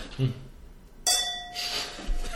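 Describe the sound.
A bright glass clink with a brief ringing tone marks a toast, set among ongoing conversation.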